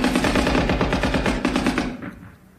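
Rapid machine gun fire in a Somme battle scene: a loud, fast, evenly spaced stream of shots runs for almost two seconds, then cuts off and fades into a brief tail.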